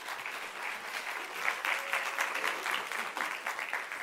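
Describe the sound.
Applause from an audience welcoming guests to the stage: even, sustained clapping from many people that holds steady throughout.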